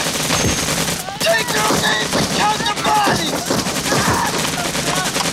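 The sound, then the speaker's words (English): Gunfire in a Vietnam War battle as soldiers by a riverbank return fire, many sharp rapid shots and bursts crackling continuously, with voices shouting over the shooting. “Fresh Viet Cong run down the riverbank. They take cover behind the boat and return fire.”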